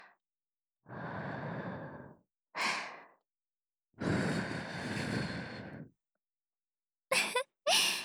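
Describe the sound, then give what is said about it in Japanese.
Gentle breathy blowing into an ear at the end of ear cleaning: two long, soft, steady blows with a short puff between them, then two quick puffs at the end. “耳かきの最後はふうふう。これがうちの会社の耳かき手順なんですよ。なんでフーフーしているか不思議ですか？”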